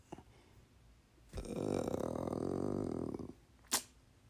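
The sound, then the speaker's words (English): A dog waking from a stupor lets out one long, low, grumbling groan lasting about two seconds, followed by a brief sharp snort, with quiet stretches before and after. “That's my dog right there. You can hear him right now. He's waking up out of a stupor.”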